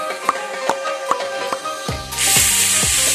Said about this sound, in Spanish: Haz la botella de champaña, Rebeca. Haz la botella de champaña.